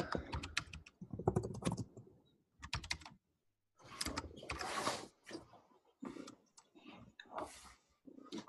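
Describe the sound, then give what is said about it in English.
Typing on a computer keyboard comes in faint bursts of rapid clicking separated by short pauses. “Let me type all 3.”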